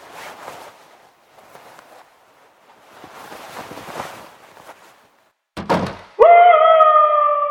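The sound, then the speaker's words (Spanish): A door slams shut as someone leaves an apartment: one sharp, heavy thump after faint shuffling sounds, followed at once by a loud, sustained, wavering wail. “Apenas se oyó el portazo que indicaba la salida de David”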